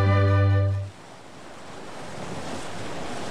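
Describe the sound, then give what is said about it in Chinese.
Ocean tide waves wash steadily with wind noise after a loud, low, sustained tone cuts off just under a second in, then the surf carries on alone. “可是潮水的声音提醒着沙曼该离开了。”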